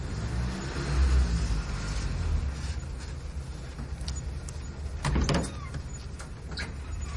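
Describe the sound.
A car's engine rumbles low and steady as the car pulls up and stops at a small shop. A brief louder burst of noise comes midway, along with a few faint clicks.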